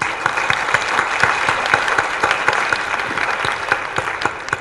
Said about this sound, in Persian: برایش دست بزنید